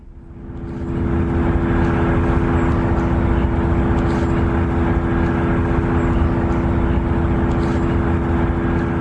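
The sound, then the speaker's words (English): Data center noise recorded from a nearby house in southern New Jersey: a constant, loud mechanical drone with steady humming tones over a broad rushing roar that swells in during the first second and then holds unchanged. “So that's the sound of a data center that's recorded by a resident who's not far, living not far. This is from their house.”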